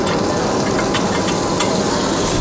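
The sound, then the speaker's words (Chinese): Onions stir-frying in a stone pot, heard as a loud, dense, continuous sizzle and hiss with a few faint stirring clicks and no talk. “因为我们这道菜要往这个石锅里放，所以说是第一步，为了防止它那个糊锅，我们就要先煸上一下洋葱”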